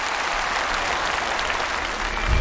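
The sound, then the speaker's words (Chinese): Audience applause congratulating the winning contestant of a bel canto singing competition: dense, steady clapping held at an even, fairly loud level throughout, with no voices over it. “再次掌声祝贺范雪妍成功胜出。”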